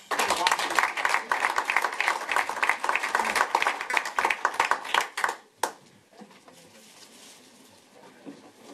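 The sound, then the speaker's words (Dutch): Dense applause from a council chamber audience for a newly sworn-in council member. Many quick overlapping claps run for about five seconds, then stop abruptly; one sharp clap follows, then near silence. “applaus.”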